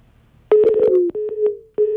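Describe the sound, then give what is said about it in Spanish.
A telephone busy signal after dialing: loud, steady mid-pitched tones in bursts separated by brief gaps, the first burst overlaid with rapid clicking. “Ocupado. Marqué mal. Está ocupado el mae.”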